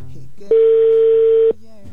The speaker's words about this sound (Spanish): Ya está sonando, amigo, el teléfono de tu esposa.